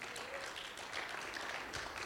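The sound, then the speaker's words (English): An audience claps hands in praise during a church service, giving a steady, dense patter of many hands at low volume. “See, that's a place to give God a hand clap of praise.”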